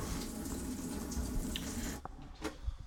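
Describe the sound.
A tap runs to fill a glass of water, giving a steady rushing hiss that stops abruptly about two-thirds of the way through, followed by a few faint, brief clicks and drips.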